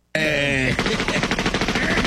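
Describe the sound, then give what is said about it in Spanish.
Rapid gunfire bursts, many shots in fast succession, loud and sustained, following a short droning tonal sound at the start. “¿Por qué estás tirando balazos?”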